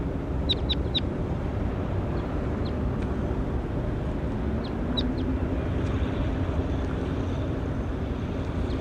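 Bird calls recorded in the field: a few faint, very short high chirps near the start and another small cluster midway, thin and sharp above a loud, steady low rumble that fills the whole recording.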